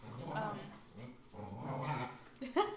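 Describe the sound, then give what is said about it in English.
Dogs play together, giving low growls, whimpers and yips. People talk steadily over the dogs. “And if you hear our dogs in the background, ignore them. Yeah, they're having fun.”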